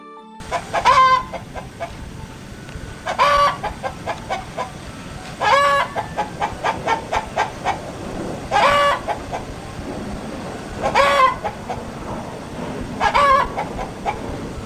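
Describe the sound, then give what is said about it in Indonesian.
Chicken clucking: six louder, rising cackles stand out from a steady stream of softer, rapid clucks, with no voices. “Iya benar, tadi adalah suara ayam.”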